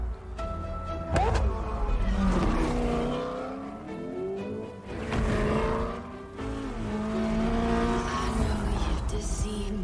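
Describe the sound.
Car engine revving and accelerating with tire squeal in a Forza Horizon video game trailer, a car driving through snow; the engine pitch climbs in repeated surges, with people talking over it.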